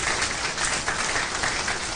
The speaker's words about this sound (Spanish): Denle un aplauso al Rey de Reyes y Señor de Señores.